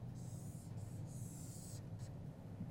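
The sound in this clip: A marker or pen drawing on a board makes hissy scraping strokes: a few long rubbing passes, then a short final one, each separated by brief pauses.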